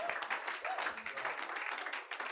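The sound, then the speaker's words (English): A church audience claps for the Lord Jesus, producing a faint, steady patter of many hands clapping together without pause. “Clap for the Lord Jesus.”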